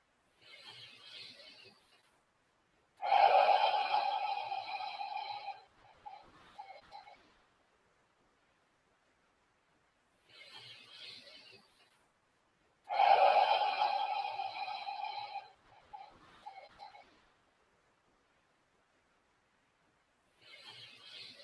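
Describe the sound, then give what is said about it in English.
Slow, deep breaths at the start of a meditation: a soft inhale, then a longer, louder exhale, repeated twice with long silent pauses between, and a third inhale beginning at the end. “We have nothing else to do but to sit and meditate quietly for a few moments. And this is a very nice way just to start that process. So let's take three breaths.”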